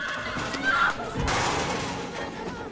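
A horse whinnies loudly, a high neigh with a quivering, harmonic edge, followed by a short burst of broad rustling noise.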